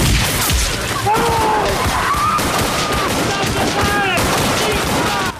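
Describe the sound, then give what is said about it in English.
A volley of rifle fire as a line of police shoots at advancing townsfolk: many sharp, overlapping cracks and bangs in rapid succession, loud and continuous, with shouting voices throughout. “An officer takes a firmer grip of his rifle as he aims. It's a trick! A line of townsfolk advance towards the waiting police. A policeman fires and his colleagues follow suit.”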